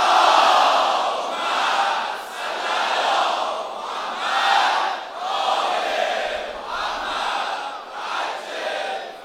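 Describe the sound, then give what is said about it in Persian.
A large crowd loudly chants salawat in unison at a major Shia celebration. Many voices surge together in rhythmic repeated phrases, rising and falling in steady waves. “صلوات بلند خواهد کن.”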